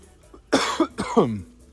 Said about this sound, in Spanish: Voy a toser. No es COVID.